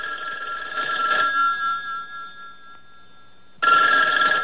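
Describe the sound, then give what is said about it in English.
A telephone in a bedroom rings in two loud bursts of bright electronic bell tones, separated by a pause in which a faint tone lingers. “He walks through his bedroom and picks up the telephone.”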